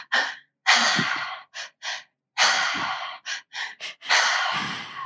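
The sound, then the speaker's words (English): Deep breaths taken in through the mouth, filling from the belly up to the chest, each released in a long exhale through the mouth. A loud, breathy series of inhales and drawn-out exhales with short pauses between them. “It starts in the belly. It goes up to the chest and the exhale is really long out through the mouth. So it sounds like this.”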